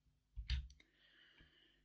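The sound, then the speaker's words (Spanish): Soft computer clicks sound as a screenshot is taken: a few quiet clicks close together early on, followed by a faint steady hum. “Acá es donde yo tengo que sacar una captura para acordarme dónde tengo que recortar”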